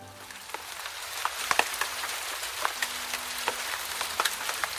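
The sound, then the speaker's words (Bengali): Steady rain falls on a surface outdoors in a rural village area, a dense patter of many sharp droplet hits over a constant hiss, fairly even in loudness throughout, with no voices. “বৃষ্টির বেগটা কিছুটা বেড়েছে।”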